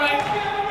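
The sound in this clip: Basketball bouncing as it is dribbled on a court, with steady bounces under talking voices.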